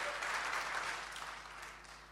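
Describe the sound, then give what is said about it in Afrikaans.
Applause from a church audience, a steady, dense wash of hand claps that holds evenly and eases off slightly toward the end. “Kom ons klap hande vir Annie.”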